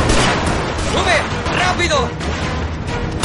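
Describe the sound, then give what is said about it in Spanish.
Gunfire in a bar shootout in a Korean War action film, with men firing into the bar from its doorway: loud, dense, continuous shots and booms throughout. “Desde la puerta del bar, Jan y sus hombres disparan al interior.”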